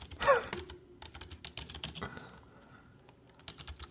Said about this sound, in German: ich schreibe es mal ganz kurz bei uns im Chat, dass ich die Geschichte nachher erzähle